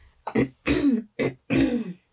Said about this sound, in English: Sorry. Don't know why my throat is acting up suddenly.